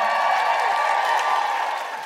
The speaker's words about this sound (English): You have to keep clapping until she gets here, otherwise it's awkward.